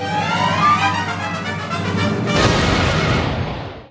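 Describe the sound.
A grenade explosion: a loud, broad booming burst after a sustained tonal buzz, rumbling briefly before decaying to silence.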